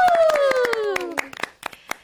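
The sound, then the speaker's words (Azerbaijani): Studio guests clap at a holiday television show, a brisk run of sharp claps while a whistle-like tone slides downward through the first second and fades. “Özünüzü alqışlayın.”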